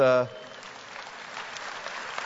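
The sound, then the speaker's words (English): A church audience claps after a brief voice at the start: moderate, steady applause of many hands that grows a little louder in the second half. “I will tell my wife you clapped for us.”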